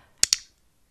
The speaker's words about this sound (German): Nochmal im Vergleich zum iClick.